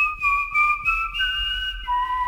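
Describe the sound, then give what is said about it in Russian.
A handmade clay toy whistle is blown, giving a bright, steady piping tone with a few brief breaks, then stepping down to a lower note near the end. “а эта свистулька тебе нравится?”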